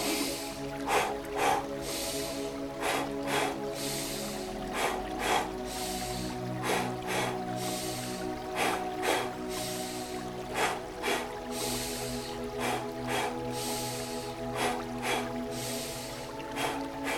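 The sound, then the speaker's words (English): Guided meditation breathing: inhales through the nose followed by double exhales through the mouth, repeating in a slow, even pattern of paired breathy bursts over soft, sustained musical tones. “Inhale, nose. With a double exhale through the mouth. Create this pattern.”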